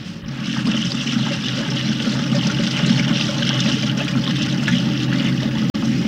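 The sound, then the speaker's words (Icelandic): Running water and the churn of a modern washing machine in a steamy hot-spring wash house form a steady, continuous wash of sound, broken by one brief dropout near the end. “Og hér ein kona með nýtísku þvottavél.”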